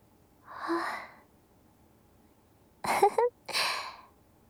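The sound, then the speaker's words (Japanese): A big, drawn-out breathy yawn from a tired person comes first, then a few shorter breathy vocal sounds. All of it is fairly quiet. “大きなあくびだったね。”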